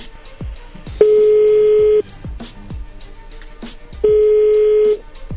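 A telephone call being placed gives two long, steady mid-pitched tones of about a second each, separated by a pause, over a background of soft rhythmic clicks and thumps.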